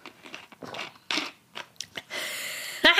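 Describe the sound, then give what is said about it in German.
Crunching ice crystals in a cold drink of water: a quick series of crisp, gritty crunches and chewing bites, loud and irregular, with no talk over them. “Ja, sind jetzt so Eiskristalle im Wasser. Da wird sogar mein Crunch-Herz zufriedengestellt.”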